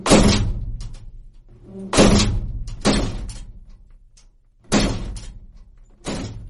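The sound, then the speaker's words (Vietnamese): Five heavy slams of a rooftop shed door bang shut at uneven intervals, each a loud, sharp thud that fades slowly before the next one. “Tiếng đập mạnh của cánh cửa căn nhà mát trên sân thượng đóng vào vang to lên khiến cho cả hai anh em giật nảy mình.”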